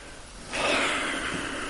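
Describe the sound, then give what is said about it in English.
People in a workshop take a deep breath together: a faint, airy rush of inhaling begins partway in and holds as one long breathy hiss to the end. “Take a deep breath.”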